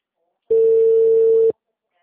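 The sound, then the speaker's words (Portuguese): A telephone ringback tone sounds while a call is placed: a single steady, pure mid-pitched beep lasting about one second, alone between stretches of silence. “Eu tô ligando pra eles.”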